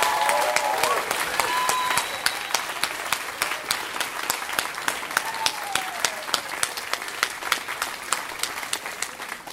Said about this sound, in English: Give it up for Kevin Allison. That was a fantastic story.